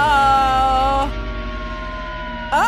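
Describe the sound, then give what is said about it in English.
Siren-like wailing tone within a song, resembling a police siren: a bright, wavering held pitch for about a second, then a lower droning stretch, ending with a quick upward sweep. “Was that a siren for a second? It sounds so much like a police siren.”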